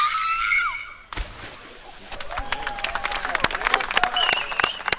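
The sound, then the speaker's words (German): A woman screams as she jumps into a swimming pool, her cry falling in pitch before a sharp splash cuts it off. Clapping, cheering and voices follow. “Ich glaube, ich habe so laut geschrien wie keiner zuvor hier in diesem Bad generell.”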